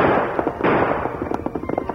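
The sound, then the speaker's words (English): Gunshots fired by a panicked rider fleeing a masked horseman in a Western drama, a loud opening crack followed by a rapid series of sharp, snapping reports of varying strength. “Panic struck him, and he turned again to fire at the masked figure.”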